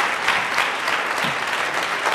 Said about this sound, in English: Give a round of applause to Kathy.